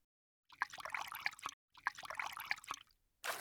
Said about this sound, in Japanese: ではこちらにお湯をかけますね。